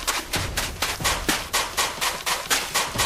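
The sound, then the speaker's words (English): Shotgun fire in a video game, a rapid, evenly spaced series of many sharp, loud blasts, each a short burst that quickly dies away. “Load my pistol. Shotgun. The shotgun does more damage. It doesn't fire as quickly.”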